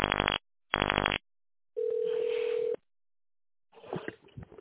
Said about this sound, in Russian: Если вы знаете добавочный номер вашего куратора, наберите его в тоновом номере.